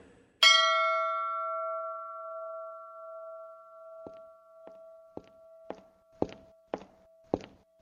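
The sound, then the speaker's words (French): A small bell is struck once to summon a servant, giving a bright ringing tone that slowly fades, followed by a series of footsteps that grow louder and heavier. “Monsieur a sonné ?”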